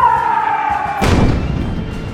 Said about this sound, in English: The bomber came back and started bombing again.